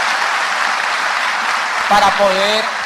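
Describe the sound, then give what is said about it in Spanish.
Dense, steady audience applause for more than fifty construction workers who rebuilt a theatre, continuing unbroken throughout, with a voice rising briefly over the clapping near the end. “démele un aplauso por favor a ellos”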